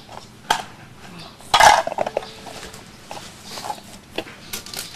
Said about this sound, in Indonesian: Susun jadi ya, sama piring ya.